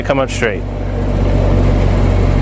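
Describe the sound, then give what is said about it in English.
A BMW car reverses on its own, steered by its remote key, producing a low, steady engine hum that builds slightly and continues after a brief voice at the start. “using the remote key, BMW remote key, I'm going to be able to back this vehicle up. And it's going to come out straight.”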